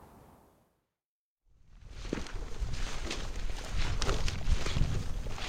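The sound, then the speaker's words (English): Footsteps crossing a heather-covered hill amid fierce snow showers: after a brief silence, soft brushing steps rise under steady, blustery wind noise. “I'm walking east at the moment, across a heather-covered hill.”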